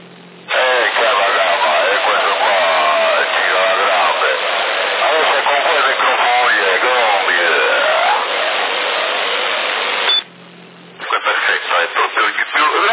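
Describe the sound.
Echo effect on a CB radio transmission in Sassari: a narrow-band, radio-filtered voice with a slow, trailing echo talks steadily and loudly, cuts to a brief pause near the end, then resumes.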